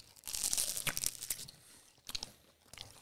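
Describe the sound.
A snack treat, a bun at a bun tasting, is torn in two with faint, crackly tearing and crunching in several uneven bursts. No one speaks.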